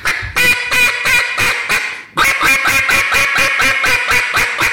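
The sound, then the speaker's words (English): Duck call imitating a hen mallard: a loud, raspy, evenly paced run of quacks, then a brief pause and a second, longer run of rapid quacks, with no talking. “see, to me, that sounds ducky, right? Like, yeah. In my ear, that sounds like a hen mallard.”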